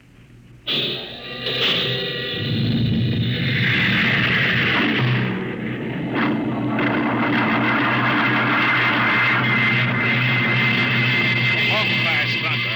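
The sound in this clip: Spaceship rocket jets one and four fire with a sudden blast that builds into a sustained, loud, deep roar, while voices talk over it.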